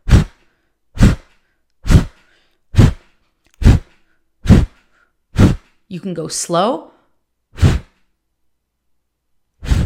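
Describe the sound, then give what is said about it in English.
Forceful exhales blown through the mouth while snapping in the belly during breathwork, sharp whooshing bursts at a steady, even rhythm, with a brief spoken phrase midway before the blowing resumes. “And as you forcefully blow out with your mouth, you are snapping in your belly. So you snap in your belly as you blow out. So it sounds like this.”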